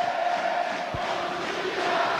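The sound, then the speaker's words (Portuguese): Football stadium crowd roaring and chanting just after Mirassol's late equalising goal against Vitória, a sustained, fairly soft wash of massed voices with no break. “E a galera canta.”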